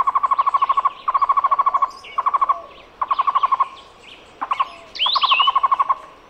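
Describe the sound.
Cuban trogon (tocororo) calling: several rapid, rhythmic bursts of repeated mid-pitched notes with short gaps between them, plus fainter high chirps from other birds.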